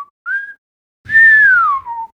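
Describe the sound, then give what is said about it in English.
Whistling carries the melody in a laid-back doo-wop jazz track: one short note, then a brief steady tone, then a long, clear note that glides downward in pitch. “hand snap rhythm, yeah, a lot of whistling, do do do do. Yes, it's based around kind of that whistle”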